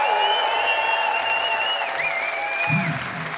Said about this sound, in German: Macht mal ein bisschen Lärm für Sophie an den Keys und an den Vocals.